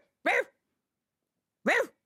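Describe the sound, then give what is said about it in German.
A human voice imitating a poodle barking gives two short, gruff woofs, well separated by silence and moderately loud. “Ich bell hier mal wie ein Pudel.”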